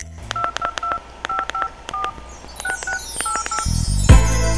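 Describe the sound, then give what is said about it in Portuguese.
A phone number is dialed on a telephone keypad: about ten short, crisp tones come in quick small groups over a low steady hum. A louder sustained sound begins at the end. “Tem que ligar pra ela. Nossa, será que eu ligo? Ah, eu vou ligar.”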